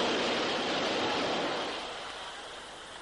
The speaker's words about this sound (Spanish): ¡Uh! ¿Nota la brisa del metro? ¡Qué sensación!